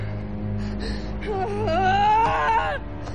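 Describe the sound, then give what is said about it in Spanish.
A frightened woman cries while sitting on her bed, her wavering whimpers rising into a higher, trembling moan with no speech, loud and alone. “Llora.”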